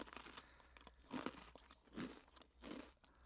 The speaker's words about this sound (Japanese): これ当たるまで私食べ続ける感じ。 だってそれが問題ですから。 かじってんね。